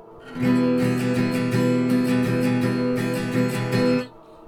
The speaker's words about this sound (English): Third chord would be an E minor, which sounds like this.